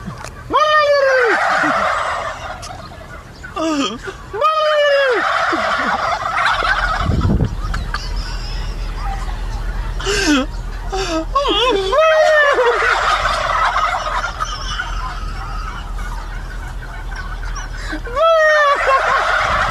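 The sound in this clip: Turkeys in an enclosure gobble in loud, rattling bursts, answering one another several times across the span, with quieter clucks and shuffling between calls.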